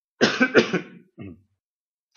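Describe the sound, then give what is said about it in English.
A person coughs, a rough burst lasting nearly a second followed by a shorter, fainter cough, then quiet. “I'm just going to cough.”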